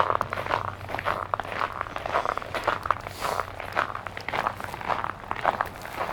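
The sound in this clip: Footsteps of people walking along a river, a steady run of many quick, scuffing steps with a constant rhythm and no talking.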